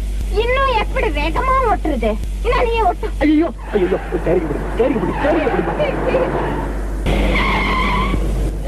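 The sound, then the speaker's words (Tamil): Car tires skid and squeal while a car is driven fast, sounding as wavering high-pitched screeches over rumbling engine noise. People talk throughout. “கொஞ்சம் வேகமா ஓட்டுமா, என்ன துரத்திட்டு வராங்க”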